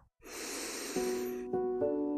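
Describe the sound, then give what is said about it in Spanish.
A deep inhale during a guided morning meditation: a single breathy hiss lasting about a second, with soft sustained musical tones entering underneath and continuing after it. “Inhalando”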